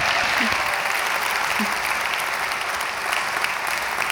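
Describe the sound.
Warm audience applause welcoming a woman speaker after an opening prayer, a full and even roar of many hands clapping that holds steady from start to finish, with faint voices mixed in.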